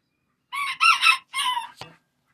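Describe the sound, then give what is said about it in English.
A rooster crows once, loud and alone: a long, harmonic, multi-part call rising into a strained middle and ending in a drawn-out tail, followed by a brief click. “A cock-a-doodle-doo, what do you know?”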